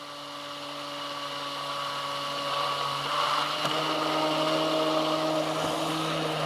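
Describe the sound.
A blender motor whirs steadily while oil is blended into an emulsion to make mayonnaise. The whine stays even and continuous, growing slightly louder over the first half and then holding steady.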